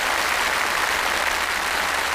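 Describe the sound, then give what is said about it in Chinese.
Audience applause at a lecture event, with dense, steady clapping from many hands sustained evenly throughout and no voices heard over it. “掌声再次感谢李教授，也感谢王教授”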